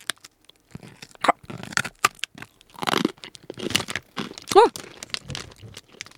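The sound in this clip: Crunching of a hard baked peanut cracker, much harder than a typical rice cracker, as it is bitten and chewed. Many irregular crisp cracks and crackles follow one another, with a voice briefly heard among them.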